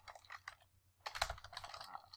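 Typing on a computer keyboard while entering a message into the Buffer app: a quick flurry of light keystrokes, a brief pause, then a longer, denser run of rapid clicking.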